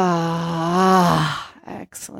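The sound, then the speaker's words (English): A deep breath is let out through the mouth during a guided breathing exercise, beginning as a long, steady voiced exhale that slowly fades, followed by soft breathy puffs of air. “One more nice deep breath all the way down to your body. Let it out of your mouth.”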